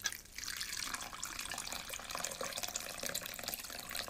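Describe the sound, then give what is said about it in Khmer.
Water pouring into a bowl to soak flour gives a faint, continuous hissing splash that holds steady for the whole stretch. “ខ្ញុំនឹងដាក់វាចូលទៅក្នុងចានមួយបន្ទាប់មកយើងនឹងដាក់ត្រាំទឹកម្សៅរបស់យើង”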